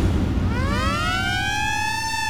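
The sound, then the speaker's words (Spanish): Siren sound effect played on a radio station: a loud wail that sweeps upward in pitch, then holds a steady, piercing tone over a low rumble, with no talk. “Piel de gallina cada vez que se activa la sirena en Radio Disney 94.3, 5 en punto de la tarde.”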